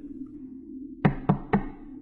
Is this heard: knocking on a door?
yes

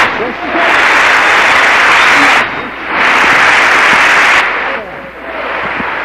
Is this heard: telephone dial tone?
no

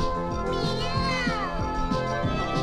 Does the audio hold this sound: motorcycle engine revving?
no

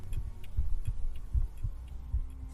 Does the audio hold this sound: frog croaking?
no

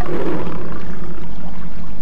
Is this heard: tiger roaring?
yes

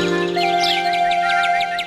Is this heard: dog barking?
no

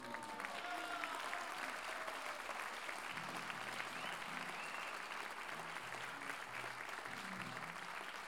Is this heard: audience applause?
yes

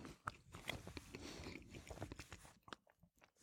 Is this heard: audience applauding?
no

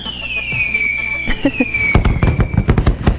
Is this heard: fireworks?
yes

